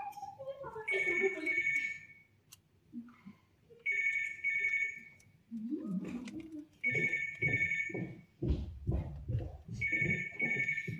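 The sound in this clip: A telephone rings repeatedly in a stage musical performance, with several bright, warbling ring bursts separated by short pauses and voices talking between and after the rings.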